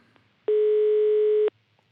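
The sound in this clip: A telephone ringing tone heard while placing a call: one steady, pure mid-pitched tone lasting about a second, loud and alone, with near silence before and after.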